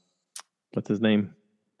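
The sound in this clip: A single sharp click of a computer mouse, followed shortly by someone speaking.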